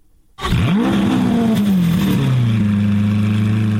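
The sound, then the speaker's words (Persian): A car engine revs at the Geneva motor show, bursting in loudly and rising quickly into a strong, sustained roar. Its pitch climbs, dips slightly, then holds steady. No voices are heard. “این صدای اتومبیل های حاضر در نمایشگاه خودروی ژنو است”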